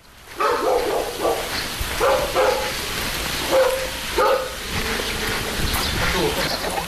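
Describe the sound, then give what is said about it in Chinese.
Dogs barking in a village courtyard, with many short barks in irregular bursts over a steady background noise. “阎余山家的小院鸡犬相闻”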